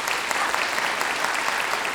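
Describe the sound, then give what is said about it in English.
Steady, dense applause from an audience for the bluegrass band Grass Time, a continuous even wash of many hands clapping with no single voice standing out. “So as you come here, you need obviously a good band to perform with, and you're here with a band called Grass Time. Let's give them a big round of applause.”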